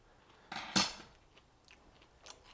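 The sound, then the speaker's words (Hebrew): Crunchy chewing of an herb-crusted schnitzel: two louder bites close together near the start, then a few soft, faint crunches in otherwise quiet surroundings. “אני גם טועם את הדבר הזה. שתדע לך, שמאז שחזרתי לא אכלתי שניצל כזה עדיין.”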